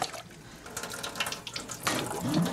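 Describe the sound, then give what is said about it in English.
Warm water running from a tap in a steady hissing flow that continues throughout and grows louder toward the end. “what I need is turn on the warm water and we put”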